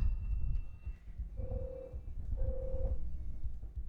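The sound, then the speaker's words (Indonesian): Telephone ringing on a call from a caller: two steady mid-pitched tones with a pause between them, over a low rumbling background. “ternyata sudah ada penelpon nih. Jadi coba kita angkat dulu.”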